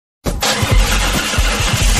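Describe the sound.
A car engine roars as the accelerator is pressed. The sound starts abruptly after a moment of silence and holds a loud, rough, steady roar with low throbbing pulses underneath.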